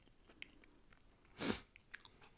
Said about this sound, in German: Ich esse jetzt hier den. Jetzt habe ich ihn zerkaut.